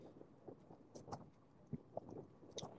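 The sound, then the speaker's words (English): Faint wind buffets the microphone outdoors, a low steady rumble with a few soft gusty bumps and no voices. “Sometimes we talk about something, you know, might hear a little bit of wind, but, you know, kind of is what it is.”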